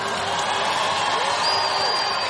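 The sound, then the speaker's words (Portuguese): Applause and cheering for Our Lady at a Catholic gathering. A steady, dense wash of clapping and crowd noise holds evenly for a couple of seconds. “Dê uma salva de palmas à Nossa Senhora.”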